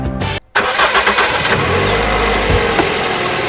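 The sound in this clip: A car engine starts and runs with a loud, steady mid-pitched rumble after a brief moment of silence early on.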